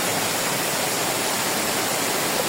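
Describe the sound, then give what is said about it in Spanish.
Floodwater rushes through the streets of Hospitalet, Barcelona, during a torrential rainstorm, making a constant loud hissing roar like a waterfall with no breaks and no voices. “Este sonido de las inundaciones en Hospitalet es una de las zonas de Barcelona más afectadas por este temporal.”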